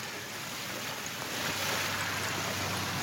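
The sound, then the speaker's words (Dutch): Waves lap on a small river beach along the Waal in the Millingerwaard, making a continuous, even wash of rushing water that swells slightly louder halfway through, with no voices. “Golven slaan op een strandje aan de Waal, Millingerwaard.”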